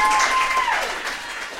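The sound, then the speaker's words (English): Applause from a live stage-show audience, a dense wash of clapping that starts loud and gradually eases off over a couple of seconds. “Please clap for them.”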